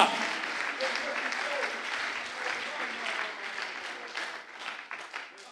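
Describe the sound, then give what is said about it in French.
Dense applause from an audience at a church worship service, a sustained wash of many hands clapping that eases slightly toward the end, with voices mixed in. “J'aimerais qu'on l'acclame très fort.”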